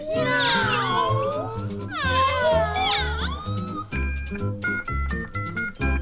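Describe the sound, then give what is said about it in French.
A domestic cat meows: two long, loud meows that rise and then fall in pitch, followed by quieter, shorter tonal sounds. “Quel est le petit nom de ton animal ? C'est Maurice et c'est un chat.”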